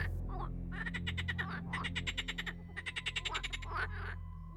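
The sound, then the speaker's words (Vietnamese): Frog croaking in several bursts of rapid, rattling pulses, some stretched into longer trills, faint overall with a steady low hum underneath. “Tiếp theo, trong khuôn miệng cứng đơ há hốc của ông Lâm vang lên tiếng ếch kêu.”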